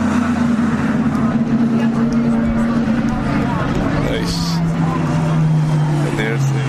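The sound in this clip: Mercedes race car engine roaring past at the finish line of a race. The engine's droning tone steps down in pitch midway, with other engine noise behind it and a voice talking over it.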